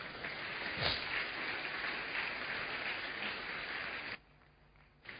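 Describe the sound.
Congregation applauding during a French-language church service, a dense steady wash of clapping that holds for about four seconds, then drops away abruptly before faint sound returns.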